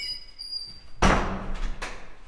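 A school door sounds with two sharp bursts about a second apart, the first louder, over a faint tonal background.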